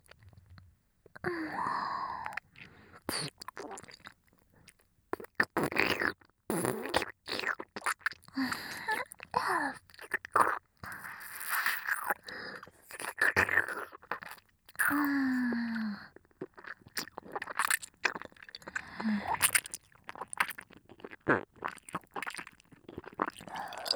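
Someone eats and chews food with many wet, crunchy, squishy mouth noises in an irregular rhythm. Brief low vocal sounds occur now and then between bites.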